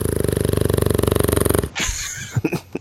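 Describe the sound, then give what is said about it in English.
A dog snores with a rapid, even, buzzy rattle that pulses steadily for about a second and a half, then breaks off into quieter scattered shuffling and a few soft thumps. “He's snoring? Yeah, that's the dog. He's snoring.”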